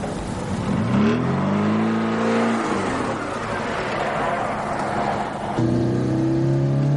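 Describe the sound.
A car drives along a road in a film scene, its engine hum rising and falling through a few revs before settling into a steady drone near the end.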